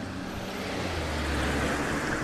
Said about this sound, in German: Ja, es fahren viele Leute aus Werneck heraus.